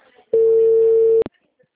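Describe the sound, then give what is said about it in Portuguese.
A telephone busy tone sounds as a call cuts off: one steady, flat, mid-pitched electronic beep lasting just under a second, ending in a brief click, followed by near silence. “Juro que tá cortando mesmo a ligação.”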